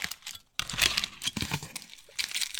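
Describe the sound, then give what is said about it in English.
Aluminium foil is crumpled and crinkled by hand in irregular, crackling bursts of rustling, with a brief silent gap near the start, then continuous scrunching that swells and fades. “You guys ready for some foil ASMR right in the middle of our podcast?”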